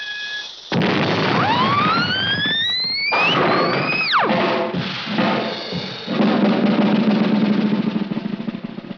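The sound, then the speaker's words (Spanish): A cartoon explosion opens with a sudden loud burst, then whistling tones slide upward and one plunges steeply. A broad, noisy blast rumbles on for several seconds and fades at the end. “¡Por todos los cielos, qué explosión!”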